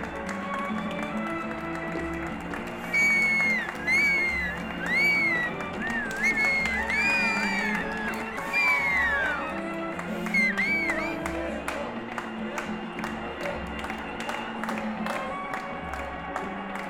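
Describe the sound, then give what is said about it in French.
Huge crowd celebrating France's 1998 World Cup win on the Champs-Élysées: dense clapping and cheering with shrill wavering whistles rising above a constant roar, swelling and easing over many seconds. “Un monde de dingue est venu aux Champs-Élysées fêter la victoire, accueillir les joueurs et manifester leur foi.”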